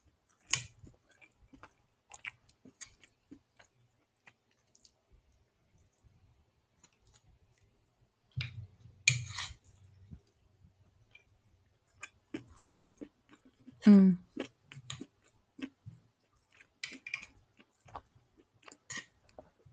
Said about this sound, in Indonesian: Kalian dengar aku ASMR. Nah, makan.